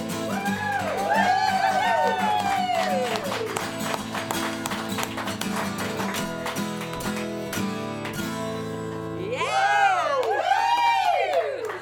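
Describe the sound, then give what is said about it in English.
A lively crowd cheers aboard a ship on a Sunday at sea. Rising and falling whoops and shouts sit over a busy, continuous hubbub, and a fresh burst of whooping comes near the end. “I see there's a bunch of us, I gotta just show you this lively crowd.”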